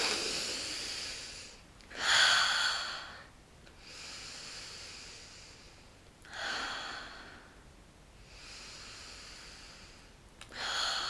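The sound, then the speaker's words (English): Deep breathing during a relaxation breathing exercise: a few slow, loud, airy inhales drawn at a steady rhythm, with softer hissing airflow between them and no talking. “Let's breathe it in, baby. Ready?”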